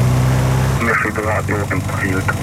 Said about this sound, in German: Und der Propeller fängt an, sich zu drehen.